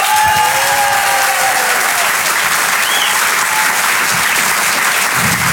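Loud, dense audience applause greets a stand-up comedian taking the stage. The steady clapping holds at an even level throughout, with a brief whistle near the middle.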